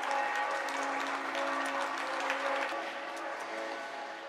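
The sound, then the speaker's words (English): Applause from residents on balconies in Italy, a dense, even patter of many hands clapping at a low, steady level, with faint sustained tones running beneath it. “In Italy, a lot of the applauding residents on their balconies are standing next to posters painted with Italian flags or giant rainbows.”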